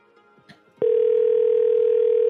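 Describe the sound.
A telephone rings as a steady electronic tone that cuts in abruptly after a quiet stretch with a few faint clicks, then holds loud and unbroken at one pitch to the end.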